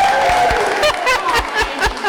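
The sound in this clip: An audience gives a round of applause for a winner: brisk, fairly loud clapping mixed with voices and a few whoops, holding steady throughout.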